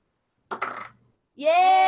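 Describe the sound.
Dice clatter during a board game turn in a short, rattling burst. After a brief pause, an excited voice shouts.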